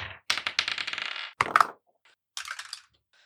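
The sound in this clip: Dice rolled for initiative in a tabletop role-playing game clatter in a few separate bursts of rapid rattling clicks. A longer rattle is followed by a short sharp tumble, then a final quieter rattle after a pause.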